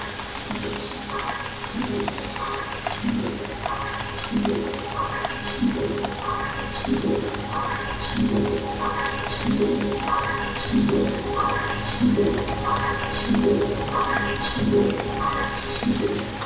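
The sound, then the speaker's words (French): Forest ambience in the forest of Carnoët: a steady, dense outdoor bed with soft, regular dripping or ticking pulses repeating throughout, and no voices. “Ambiance dans la forêt de Carnoë.”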